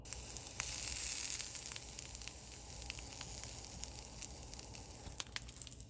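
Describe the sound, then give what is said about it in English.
Three sausages sizzle in a heated grill pan, a steady, hissing fry threaded with small crackles and pops that continues without a break throughout. “we're just going to put them on the grill pan. So we're heating up the grill pan and we're going to do that.”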